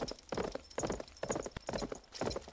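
Horse hooves clip-clop in a steady, rhythmic gait as riders set off on horseback toward a palace, with many even beats alone.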